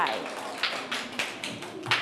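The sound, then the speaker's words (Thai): Children in a classroom clap for a classmate who performed a dance step correctly: a faint, sparse scatter of sharp hand claps spread unevenly across two seconds. “ถูกต้องปรบมือให้เพื่อนหน่อยค่ะ”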